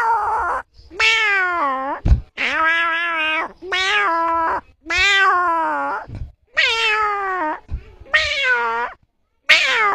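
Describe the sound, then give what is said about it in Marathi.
A person imitating a small kitten's meow gives a string of high, whining, drawn-out mews separated by short gaps, each bending in pitch, with no other talk. “आवाज मांजराचा. का बरं? म्हणजे तो एक आपली ते लक्ष्मीच आहे ना. अच्छा, म्हणून आवडतो. जरा काढून दाखवा ना.”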